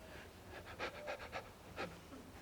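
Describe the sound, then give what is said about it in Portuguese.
A voice imitates shallow panting like a little puppy, with many quick, faint breathy puffs in a rapid rhythm, followed by a pause and one last puff. “like a little puppy. A maioria das pessoas respira assim, parece um cachorrinho.”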